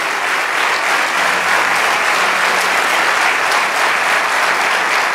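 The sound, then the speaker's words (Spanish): A church audience breaks into loud, sustained applause during a sermon. The dense, even clapping holds at a constant level for the whole stretch, with no break or swell. “Vamos, dale ese aplauso.”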